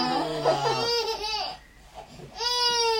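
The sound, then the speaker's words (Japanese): Two babies crying together, high wavering wails in two bursts separated by a short lull, fairly loud with no adult talk over them. “あら、2人とも泣いちゃった”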